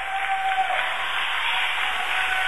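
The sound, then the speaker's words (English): Crowd applause at a basketball game, greeting an Afton player who came off the bench and cleaned a wet spot on the floor: a steady, dense wash of clapping that holds an even level throughout. “the crowd giving an enthusiastic little round of applause here for one of the Afton players who's come off the bench and cleaned up that spot.”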